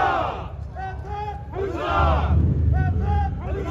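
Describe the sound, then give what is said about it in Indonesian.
Crowd cheering at George Washington's birthday parade in Alexandria, Virginia: many voices whoop and shout in overlapping rising and falling calls over a steady low rumble of street noise. “Ratusan orang yang bersuka cita berbaris di jalan-jalan kota tua Alexandria, Senin. Mereka bersorak menyaksikan parade tahunan untuk memperingati ulang tahun George Washington”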